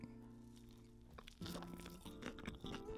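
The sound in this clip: Crunchy bites and chewing of a cheese chili sandwich topped with plenty of cheese and packed with filling. The sounds are faint, with a few brief crisp crunches coming after a quieter start.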